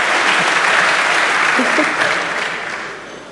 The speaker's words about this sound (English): Applause from the audience.